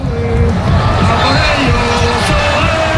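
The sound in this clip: A crowd in Madrid's Plaza de Colón celebrates Oyarzabal's penalty goal with a dense, loud, sustained roar of cheering and shouting that never lets up.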